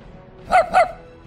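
A dog barks twice, two short, evenly spaced, mid-pitched barks that stand out clearly against quiet.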